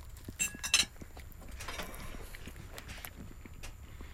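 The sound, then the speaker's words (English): A knife and fork scrape and clink on a plate during fine dining, with a few faint, sharp clinks close together early on, then quiet low rustling. “Let's try it. Using knife and fork.”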